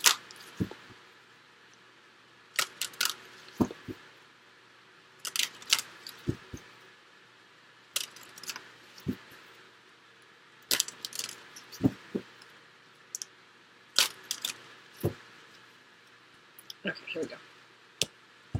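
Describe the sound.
Tarot cards are shuffled and drawn, giving many crisp snaps, flicks and taps that arrive in irregular clusters separated by quiet gaps.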